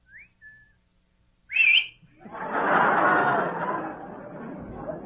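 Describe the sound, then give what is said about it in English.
A man whistles lightly toward a couple of girls in a car: a short, thin whistled tone, then a brighter whistle burst, followed by a longer wash of chattering noise. “I'll whistle to them lightly. I wonder if they whistle back.”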